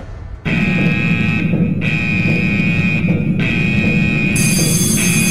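An alarm sound effect blares as a loud, continuous buzzing tone with a piercing high whine on top. The whine cuts out briefly a few times while the low buzz keeps going, with no voices.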